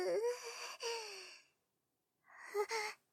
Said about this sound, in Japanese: それじゃあ吸い込みなさい。深呼吸。